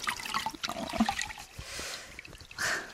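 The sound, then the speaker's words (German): Water sloshing and trickling as blood is washed out of cloth, a faint, uneven wet dribbling with a louder splash near the end. “Jetzt mühte sie sich, das Blut aus dem Stoff zu waschen.”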